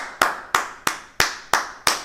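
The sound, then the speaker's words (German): Six sharp hand claps beating out a rhythm during a music lesson, each a crisp, bright slap with a short decay, evenly spaced and at steady volume. “Meistens reicht es den Kursteilnehmenden schon, den Rhythmus vorher zu klatschen oder zu singen, um ihn zu verinnerlichen. Shuffle, shuffle im Swing oder aber gerade.”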